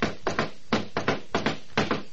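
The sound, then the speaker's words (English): Knuckles knocking on a door: many sharp, fairly faint raps in a loose repeating pattern of quick pairs and triples, with no voices. “I rapped on the door marked Adam Flynn”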